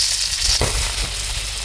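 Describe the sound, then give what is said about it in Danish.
A sausage frying in a pan gives a steady, bright sizzling hiss, with one sharper crackle partway through. The sizzle is loud and continuous, and no voices are heard. “Jeg afspiller en lyd af en stegende pølse lige om ganske få sekunder.”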